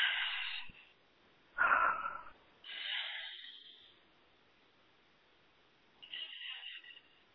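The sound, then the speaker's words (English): A few soft, airy breaths taken during a guided deep-breathing moment in a coaching session, each a breathy hiss with quiet gaps between them, alone without speech. “So take a deep breath.”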